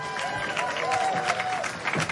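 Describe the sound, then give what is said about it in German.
Audience applause before a live song performance: a fairly faint, continuous wash of clapping with a brief tonal sound in the middle. “Kommt bitte einen Applaus für Sebastian.”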